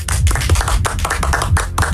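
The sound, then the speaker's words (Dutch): Weak, lukewarm applause at a game show: sparse, scattered hand claps in an uneven rhythm, with no building crowd roar behind them. “Wat een tam applaus, zeg.”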